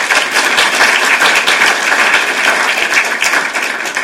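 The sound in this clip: An audience claps to welcome a professor before a lecture, producing loud, dense, unbroken applause with many overlapping hand claps and no talking over it.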